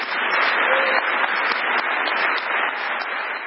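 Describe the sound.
Loud, sustained applause from an audience of thousands after Margaret Chan's speech, dense and steady clapping with no break from start to end.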